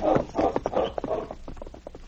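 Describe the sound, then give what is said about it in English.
Hoofbeats of horses being ridden away along a south trail: a steady run of many clip-clopping thuds at an uneven walking rhythm, fairly loud at first and then easing slightly. “Alex and Joe rode a short way out the south trail”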